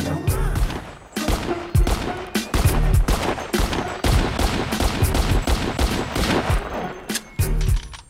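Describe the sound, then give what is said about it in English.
Rapid gunfire as a gun is fired repeatedly and emptied at a deserted firing range: many loud, sharp shots in dense bursts, with brief gaps between volleys. “He reloads and empties the clip, an intense, anguished look on his face.”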